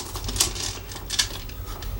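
Dice clatter as a large handful is rolled in a dice game: a couple of short, sharp rattling bursts over a low, steady background.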